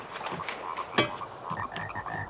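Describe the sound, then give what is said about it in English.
Frogs, about a dozen, croak and thump against a window pane at night. Rough, buzzy croaks repeat throughout at moderate loudness, and one sharp knock against the glass stands out midway. “Sounds like something is thumping. Holy shit. I don't believe it. There's like a dozen frogs thumping against the window.”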